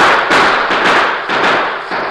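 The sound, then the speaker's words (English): Gunshots crack out in a shootout between outlaws and a posse, a few sharp, dense bursts following one another in quick succession with no voices in between. “A moment later, a bullet struck Basie in the arm. A second bullet in the shoulder put him out of the fight.”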